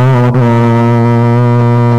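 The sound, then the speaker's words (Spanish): A loud, continuous deep ship horn blast holds a steady low pitch with rich overtones for about two seconds, dipping briefly near the start. “Ah, no, eso me sonó a, a, a- a pito de buque.”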